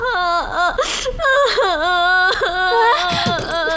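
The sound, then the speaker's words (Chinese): A person crying loudly and without pause: wavering, high wails that rise and fall, broken by sobbing breaths and whimpers, with no other voices. “许哭。不许哭。”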